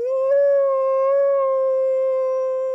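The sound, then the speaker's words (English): A wolf howls in one long, steady, clear tone that holds a nearly level pitch throughout, loud and alone with no other sounds. “Wolves are famous for their howls.”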